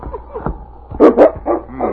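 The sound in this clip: Husky sled dogs give a few sharp barks and yips, the loudest coming in quick succession in the second half, with softer whines and snuffles before them.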